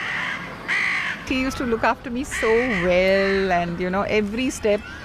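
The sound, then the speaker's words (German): Crows caw in the background, giving several harsh, ragged calls in quick succession, mixed with a person talking throughout. “Man achte bei den folgenden Aufnahmen auf die Krähen im Hintergrund.”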